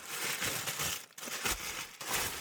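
Wrapping crinkles as a package is opened: dense, continuous rustling with brief dips near the middle and again toward the end, fairly loud and with no talk.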